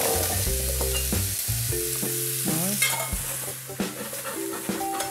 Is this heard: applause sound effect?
no